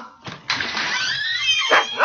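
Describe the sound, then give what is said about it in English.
A dog barks at approaching visitors: a short bark, then a drawn-out, falling whining yelp, followed by two more sharp barks. “Quiet, Warden. That's no way to welcome company. Does that dog bite, mister?”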